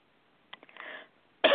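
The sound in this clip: Throat clearing from someone with a throat scratchy after a big breakfast: a few small catching coughs give way to a short rasping clear. A voice breaks in loudly right after.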